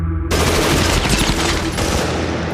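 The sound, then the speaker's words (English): Heavy gunfire from a firing squad volley: after a brief quieter lead-in, a dense, loud burst of many overlapping shots starts abruptly and carries on without pause to the end. “Your sentence was carried out by a firing squad of 1,000 hours.”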